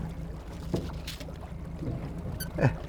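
A boat motor runs at low speed as a steady, low, humming drone, with a few faint knocks and splashes over it.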